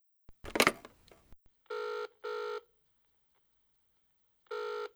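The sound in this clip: A telephone rings for an incoming call to a friend. A short clattering burst comes first, then three bright electronic ring bursts, two close together and one after a pause.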